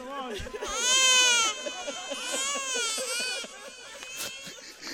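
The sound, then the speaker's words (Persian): An infant cries in loud, wavering wails that rise and fall in a few separate bursts, the strongest near the start, with softer whimpering sobs between and after them. “نه، این گریه ها رو نباید گذاشت، مادرش نگران میشه.”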